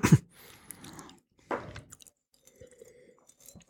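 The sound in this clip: Chewing on Krakauer sausage topped with Polish mustard: a few soft, moist bites and crunches, faint and separated by short pauses, with no talking.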